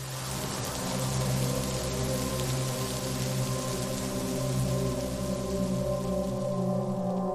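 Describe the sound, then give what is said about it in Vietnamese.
Rain falling by a riverbank: a steady, even hiss of rain that continues throughout, layered over a sustained low tonal drone. “Chỉ có tiếng mưa trời đang âm thầm tiễn Xuyến bên bờ sông quen thuộc.”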